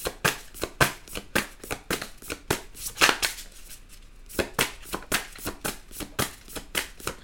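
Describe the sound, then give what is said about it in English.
Tarot cards being drawn and handled from a deck, heard as a fast run of many crisp flicking snaps in a fairly steady rhythm, with no talking. “I'm going to take another one just to see what comes out because I want to be nosy myself. All right, I need another card for Cancer.”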